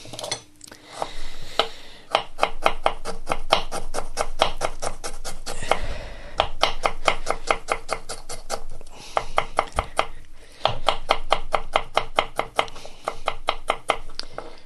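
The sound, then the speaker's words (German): A knife chops ingredients in rapid, steady bursts of many sharp, even taps, loud and rhythmic, with short pauses between the runs. “Schneiden alles da rein.”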